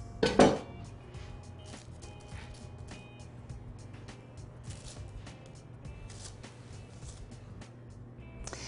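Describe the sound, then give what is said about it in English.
Clatter of a cookie sheet as cracker dough rounds are set onto it: a sharp metallic rattle at the start, then many light taps and soft scrapes scattered through the rest, with no talk. “So let's go ahead and fill up our cookie sheet. Probably with this first roll.”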